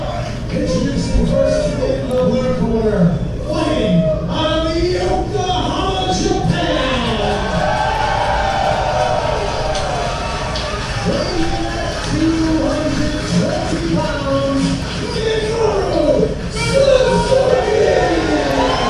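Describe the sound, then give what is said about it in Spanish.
A crowd chants at a Bloodsport combat-sports event at the White Eagle Hall, a sustained mass of voices rising and falling over dense background noise. “Y el público coreando Bloodsport aquí en el White Eagle Hall.”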